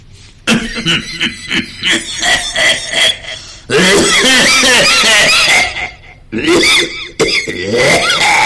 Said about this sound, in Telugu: దగ్గుతున్నాడు పక్కన విద్యార్థి తాతగారు మీరు బాగా దగ్గుతున్నట్టున్నారు ఈ టాబ్లెట్ వేసుకోండి